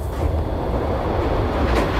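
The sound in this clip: A train moving through a tunnel at about 71 km/h gives a continuous, heavy low rumble with a broad roaring hiss, steady throughout and with no voices.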